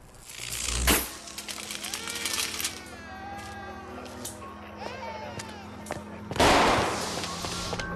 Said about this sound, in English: another explosion of sparks lights the night sky.